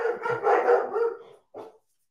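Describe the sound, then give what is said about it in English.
Dogs barking: a loud cluster of overlapping barks for over a second, then a brief pause and one short final bark, with no talk. “I don't know if you heard the dogs barking.”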